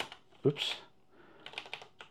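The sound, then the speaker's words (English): Clicks of typing on a computer keyboard, a few quick key presses clustered near the end, mixed with brief talk. “Use the keyboard for this, maybe.”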